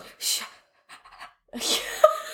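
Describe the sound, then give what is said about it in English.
Quick panting breaths during a breathing exercise: a few uneven, breathy bursts of air, fairly loud, with a short voiced tone creeping in near the end. “One deep breath in, seven quick breaths out.”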